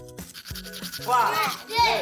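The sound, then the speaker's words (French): A toothbrush scrubbing teeth in rhythmic strokes, with brief tonal sounds alongside. “Donc attrape ta brosse à dents, ton dentifrice, et décrotte jusqu'à ce que l'histoire soit terminée.”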